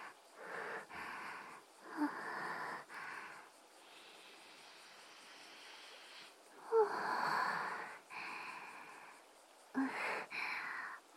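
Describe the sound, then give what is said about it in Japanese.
Close nasal breathing and sniffing sounds right at the ear, in a series of soft, airy inhales and exhales with a few sharper snorting sniffs. It is quiet throughout, with no talking. “鼻息がかかってくすぐったい？ごめんね。でももうちょっとこうさせて。”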